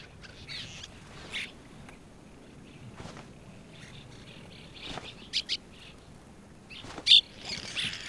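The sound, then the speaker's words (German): Cliff swallows calling at a breeding colony on an old hot-spring travertine cone, with scattered short chirps and squeaky calls, a few sharper and louder, over a low background hush. “An der Rückseite befindet sich eine Brutkolonie der Pfahlstirnschwalben.”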